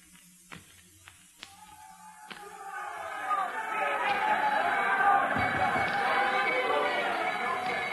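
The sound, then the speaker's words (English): Crowd noise at a busy bus station starts with a few sharp knocks over a quiet background, then a dense murmur of many voices swells up and stays loud to the end. “There's noise. Too many people. We're by the bus station, and the bus is here, right here.”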